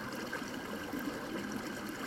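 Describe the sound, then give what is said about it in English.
Flowing water runs in a steady, continuous wash, soft and even throughout, with no voices. “listen to the water. Let it lead you into the silence.”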